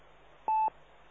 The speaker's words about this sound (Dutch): die was natuurlijk aan de telefoon, want er ging net over.